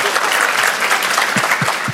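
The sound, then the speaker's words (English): Audience applause at a church service, a dense, steady wash of clapping that holds at an even, loud level throughout, with a few sharper low thumps near the end. “Let's give him a round of applause.”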